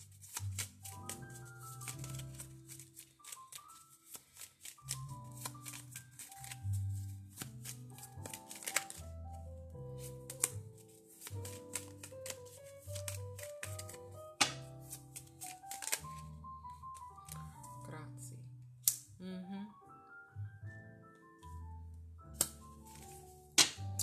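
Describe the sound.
Playing cards are shuffled and drawn during a card reading: many quick riffling and flicking bursts come in irregular clusters, with a few sharper snaps standing out and no one speaking.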